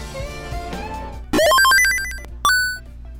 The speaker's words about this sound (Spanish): ¿Tenemos una llamada?